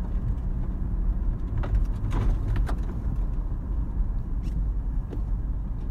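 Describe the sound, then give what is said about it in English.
A car drives over a rocky road, producing a continuous low rumble with faint scattered ticks and crackles from stones under the tyres. “sorry, my car is just making some sounds, but it's just the rocks I'm driving on. I didn't realize there were fucking rocks on this road.”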